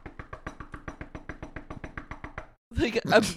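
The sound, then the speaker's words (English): A voice imitates intense knocking on a door: a long run of rapid, evenly spaced knocks, then a brief pause and a burst of voice. “So she goes and just starts knocking on the door, interrupting their chakra session.”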